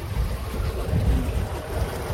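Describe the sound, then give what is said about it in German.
Steady low rumble of a solar-powered ferry crossing the Weser river, with wind and water noise running evenly throughout and no voices. “wir wollten gerne die Fähre testen. Wir fahren auf der Weserseite wieder nach Bodenwerder. Fähre fahren macht Spaß.”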